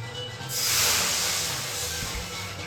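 Nongfu Spring bottled water being poured: a broad, rushing hiss that swells over the first second and then holds fairly steady, with a soft low rumble beneath and no voices.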